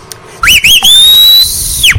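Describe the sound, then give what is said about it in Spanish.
A person whistles loudly: two short wavering notes, then one long sustained high note that rises slightly before cutting off. “pero claro que vamos a chiflar, ¿por qué no?”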